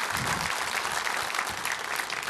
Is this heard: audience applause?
yes